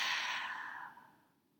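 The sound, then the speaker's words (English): An open-mouth exhale during a breathing exercise: a soft, airy whoosh of breath that starts fairly strong and tapers off over about a second and a half. “Inhale to expand. Open mouth, exhale to release.”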